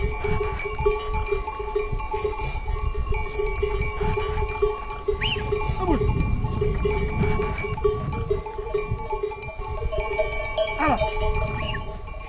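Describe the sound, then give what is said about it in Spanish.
Bells clink and jingle steadily from a herd of some 200 goats grazing firebreaks for wildfire prevention, with a few bleats rising over the continuous metallic ringing. “tengo 200 cabras y colaboro con bomberos en hacer cortafuegos para franjas indicadas”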